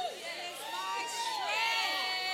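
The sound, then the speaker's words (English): Congregation shouting during a church worship service: many overlapping voices cry out together in a dense, steady, loud wash with no pauses. “Y'all have to stop shouting for just a minute, because now I'm going to make you cry a little bit.”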